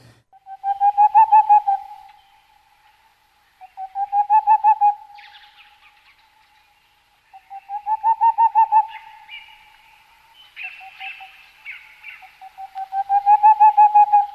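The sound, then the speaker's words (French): Soft, fluted song of a Tengmalm's owl from mountain larch forest: repeated phrases of quick, mellow hoots rising and falling in volume, with quiet gaps between them, one phrase fainter, and a few faint higher calls between. “Donc là, c'est le chant vraiment doux et flûté de la chouette de Tangmalm, qui vit dans les Mélésins,”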